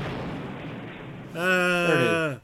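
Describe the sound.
Explosion sound effect: a dense rumbling burst of noise that fades over about a second, followed by a louder tonal, voice-like sound before it cuts off.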